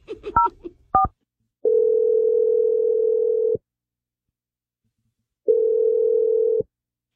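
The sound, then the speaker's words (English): Telephone keypad tones beep quickly a few times as a number is dialed, followed by two long, steady, low ringing tones separated by a stretch of silence. “we're going to dial his number right now. Here we go.”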